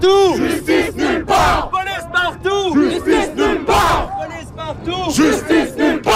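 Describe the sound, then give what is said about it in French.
A protest crowd in the streets of Montreal chants a two-part French slogan at a rally outside a police station. The loud, forceful call is repeated several times in a steady rhythm. “Ce que vous entendez, c'est ce qui s'est passé hier soir dans les rues de Montréal, un rassemblement, une manifestation.”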